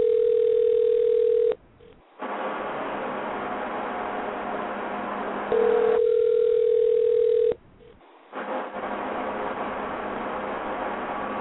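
A telephone ringback tone sounds on a call, with two long, steady, low buzzing tones separated by stretches of hissy line noise.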